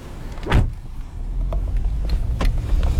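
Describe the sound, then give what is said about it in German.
A car setting off from a harbour parking lot, a steady low rumble running throughout with a few brief swishing sounds layered over it. “Jetzt fahren wir zum Eurogate-Terminal, das heißt mitten in den Hafen zum Container-Terminal”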